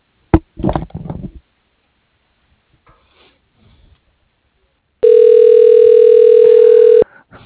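A steady, single-pitched telephone line tone plays for about two seconds while a call is transferred to voicemail. Brief rustling and handling noises come before it, then a stretch of near silence.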